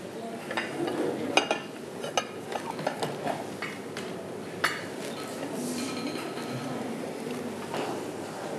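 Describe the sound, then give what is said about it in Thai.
Rice plates being set down one by one on a table, four in all, making scattered ceramic clinks and knocks at irregular intervals over a low, steady background. “นําจานนะครับเป็นจานข้าวมาวางเลยครับทั้งหมดอยู่4ใบนะครับก็จะวาง”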